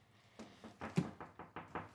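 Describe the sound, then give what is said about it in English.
Knuckles rap on a door in a quick, uneven series of quiet knocks. “I'll go get that. Wait, it's okay. Don't get that. Okay. We're podcasting. When you podcast, you don't answer doors.”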